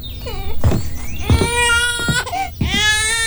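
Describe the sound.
An infant cries without stopping in loud, high wailing bursts, its pitch bending up and down, with short catches of breath between cries.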